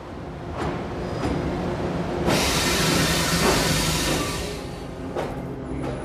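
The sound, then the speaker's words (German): A train pulls away from a station platform with a broad hiss and rumble. The noise swells sharply partway through, stays loud, then eases slightly toward the end. “Der Zug lief an.”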